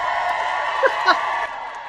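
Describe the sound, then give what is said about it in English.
Cheering and a few high whoops from a small group greeting the hosts as a salon event opens, over a steady murmur of voices. “I love that I have my own cheering section. Your own crowd.”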